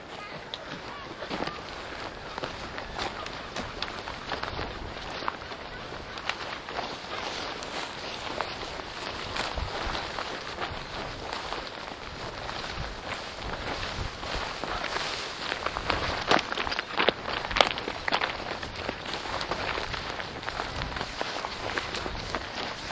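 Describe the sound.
Footsteps walk outdoors toward a cave, many steady, gritty steps following one another without pause against a faint, airy outdoor background.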